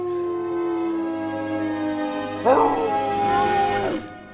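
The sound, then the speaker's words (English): Great Dane howling by the window of a hotel bedroom: one long, sustained, tonal howl that jumps to a higher, brighter whine about halfway through, then cuts off. “They run over to the Great Dane, who's still howling and barking by the window.”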